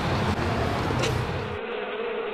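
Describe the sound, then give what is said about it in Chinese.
Dense, continuous buzzing of many honeybees swarming out of their hives in the midday heat, loud and steady throughout with no clear breaks. “临近中午，温度越来越高，蜜蜂大量外逃”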